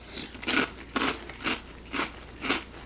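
Biting and chewing a crunchy apple cereal snack: about five crisp, crackly crunches in a steady rhythm, fairly faint, with no voices.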